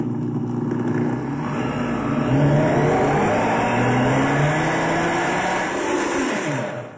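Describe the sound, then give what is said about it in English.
Chocolate fudge being mixed with coconut butter, a loud, steady motorized whir that runs throughout with a slightly wavering pitch and no talk. “Getting the coconut butter in there. And we mix like so.”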